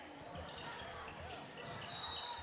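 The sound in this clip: A basketball is dribbled on a court during a game as a player commits a double dribble; faint, repeated bounces sit under steady background noise and talk.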